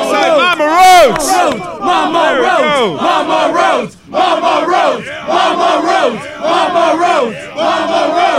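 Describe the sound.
A wrestling arena crowd cheers and chants loudly for a wrestler's mother, a dense, continuous roar of massed voices rising and falling in rhythmic waves with one brief lull.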